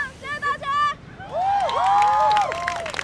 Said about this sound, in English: Her classmates cried and cheered her on.